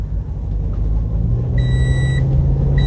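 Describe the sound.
A car engine rumbles steadily at low pitch as the car sets off, and a high electronic beeping tone joins partway through and carries on over the drone.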